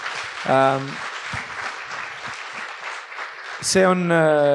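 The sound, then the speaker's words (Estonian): Applause from a small group follows a shared anecdote, a moderate steady patter of clapping with voices rising clearly at the start and again near the end. “Teeme aplausi.”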